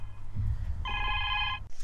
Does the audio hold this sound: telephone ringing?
yes